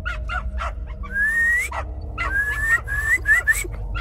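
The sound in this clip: A man gives several rising whistles to call his dog, each sliding upward in pitch. Dog barks, yips and whimpers come in short bursts around the whistles.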